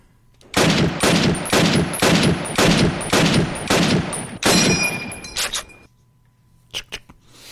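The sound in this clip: Gunfire from a weapon in a video game: a long run of rapid, evenly spaced loud shots in a steady rhythm, then a few fainter, sharper clicks after a short pause.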